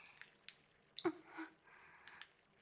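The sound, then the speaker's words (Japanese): Soapy squishes and soft drips from someone's arm being washed with soap, a few faint wet squelches spread out with quiet gaps and no talking. “次は前も洗っていきます。腕をお借りしますね。”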